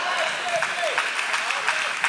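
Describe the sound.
A church audience clapping during a sermon makes a soft, steady wash of dense applause, with a preacher's voice speaking over it throughout.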